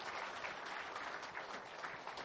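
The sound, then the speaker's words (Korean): Applause from a church audience at a Korean church service: dense, steady clapping that stays even throughout and is fairly faint, with no voices standing out. “우리 다시 한번 하나님께 뜨거운 박수로 영광 돌렸으면 좋겠습니다.”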